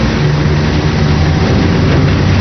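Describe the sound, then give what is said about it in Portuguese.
An airplane taking off produces a steady, dense engine roar with heavy low rumble. It holds at an even loudness throughout, with no voices. “A decolagem, eu me lembro. Foi a parte mais difícil do voo a decolar. 5 segundos. Preparados.”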